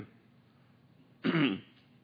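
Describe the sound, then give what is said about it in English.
A member of a church audience clears their throat during a Sunday sermon. One short, gruff throat clearing stands out after a quiet stretch, with no talk. “On Sunday mornings when my voice gets rough, I hear everybody clearing their throat for me.”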